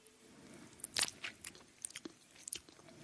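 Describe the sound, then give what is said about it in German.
Chewing and biting while tasting sour cream: a few crisp, wet mouth clicks and smacks in an irregular rhythm, soft and alone, with one sharper bite near the start. “Eine wunderschöne saure Sahne, so sieht's aus. Probieren wir sie gerade ein kleines bisschen.”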